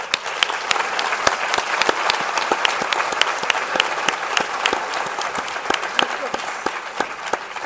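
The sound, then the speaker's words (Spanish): Audience applause for a speaker at a talk, many hands clapping steadily throughout at an even loudness. “vamos a hacer un aplauso a Lola.”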